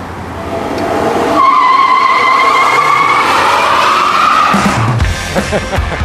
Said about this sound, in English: Oh, here's the video of this burnout. Watch this thing here.